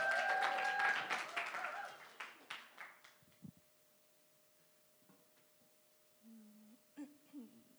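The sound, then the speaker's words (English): Audience applause welcomes a speaker at a church service: a burst of dense clapping that thins out and fades over about three seconds, then near silence with a few faint stray sounds. “So please put your hands together and help me welcome Yumi.”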